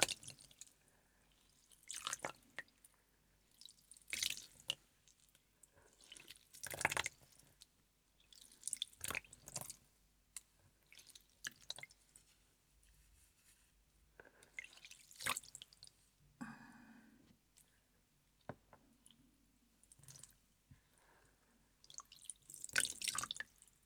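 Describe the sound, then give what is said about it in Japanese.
Lukewarm water is poured slowly over hair and scalp during a head spa, heard as soft, intermittent splashes and drips separated by quiet gaps. “お湯をゆっくりとかけ流し、頭皮に浸透させていきます。”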